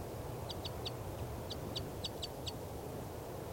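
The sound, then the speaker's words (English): Short, high begging calls from a female bird at the nest. Several brief notes come at fairly even intervals, with one fainter note among them, over steady low background noise. “I've got a net set up here underneath the nest, and this is the begging calls of the female.”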